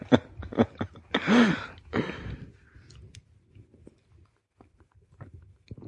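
Chewing on nuts, with crisp crunching bites and a few louder bursts early on, then quieter scattered clicks and mouth sounds that grow sharper toward the end.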